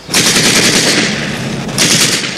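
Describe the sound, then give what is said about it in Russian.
Loud, rapid gunfire rattles without a break as German soldiers try to cross a ford under fire in a war scene, a dense crackling burst with no voices. “Немцы пытаются перейти брод, Женя стреляет в них.”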